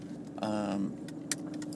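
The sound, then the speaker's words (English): A car being driven gives a low, steady engine and road hum throughout. A brief voice and a light, jangling clatter like keys sit above the hum. “Sorry, I'm driving.”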